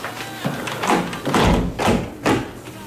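A window is shut with a few dull thumps and knocks, the heaviest near the middle, separated by soft handling noises.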